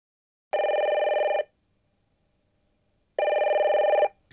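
A telephone ringing for a call, in two electronic ring bursts of about a second each, separated by a pause of nearly two seconds, followed by a brief faint sound at the end.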